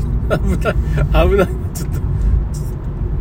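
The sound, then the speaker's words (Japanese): A car's engine rumbles as it arrives home and comes to a stop, a steady low drone running under brief talking. “ちょっと今家にやっと着きましてまあちょっと居眠り運転になったら困りますから”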